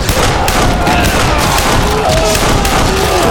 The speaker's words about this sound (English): Men began running out of a building close by, and Frank pulled out his Colts and started evening the score.